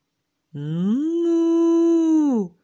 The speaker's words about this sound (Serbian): Na livadi naiđe na kravu. Kre, kre, kravo, hoćeš li ti da budeš moja mama?